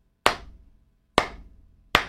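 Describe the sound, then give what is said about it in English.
Three slow, sharp hand claps from a single clapper, evenly spaced about a second apart. Each has a crisp attack and a fading tail, with near silence between them and no voices. “That's my first round of applause I've ever given to the NCAA.”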